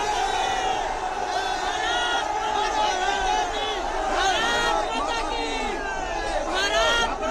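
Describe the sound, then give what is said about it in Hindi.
Crowd loudly chanting patriotic slogans such as Bharat Mata ki Jai and Vande Mataram in celebration, with many overlapping raised voices, shouts and whoops sustained throughout. “माता की जय, वंदे मातरम, ये नारे यहाँ से लगाए जा रहे हैं”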